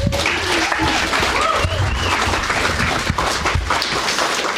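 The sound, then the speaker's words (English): Warm audience applause greets a reader at a short story workshop event. Many hands make a dense, steady clatter that stays loud and even throughout. “Please give a warm welcome to Jenny Eitel.”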